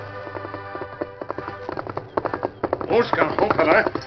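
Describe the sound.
Horse hooves ridden hard: rapid, irregular hoofbeats that grow louder and denser toward the end, over a sustained low tone.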